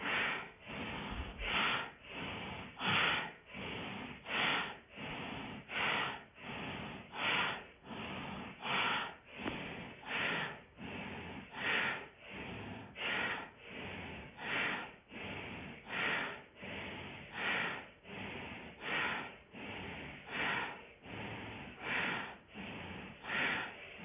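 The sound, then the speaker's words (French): Bhastrika bellows breathing: forceful breaths pumped through the nose in a rapid, steady rhythm. Many even, loud bursts repeat for the whole stretch, with no talking. “on relance le Bastrika.”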